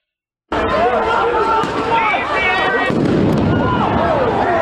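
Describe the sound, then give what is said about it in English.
Flashbang grenades fired by police at a street clash during a protest crack out as sharp bursts over a loud, chaotic crowd din, with whistles and shouting voices continuing throughout. “Police firing flashbangs now.”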